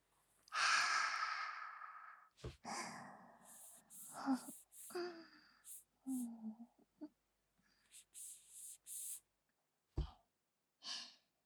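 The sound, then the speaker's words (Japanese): Deep breathing: a few slow, breathy inhales and exhales, some with faint voiced sighing, separated by short pauses and fairly quiet overall. “とりあえず終わった区切りに深呼吸深呼吸。”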